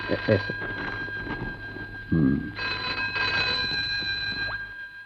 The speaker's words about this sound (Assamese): এই কামৰ সময়ত ফোনটো আহিলে।